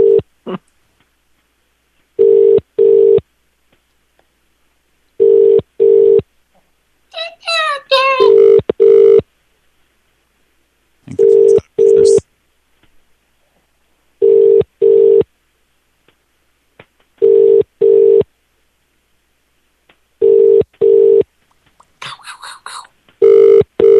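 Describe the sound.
A telephone ringback tone sounds during a call: many paired ring tones repeat at a steady interval of about three seconds. Brief bursts of talk fall between some of the rings.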